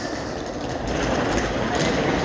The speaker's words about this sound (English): as you can hear, I'm just gonna go into the train station here